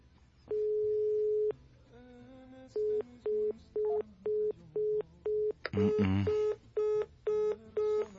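Telephone line tones on an unanswered call to a number in Hidalgo, Mexico: one long steady tone, a short burst of dialing beeps, then many short evenly spaced beeps, broken once by a brief noisy burst.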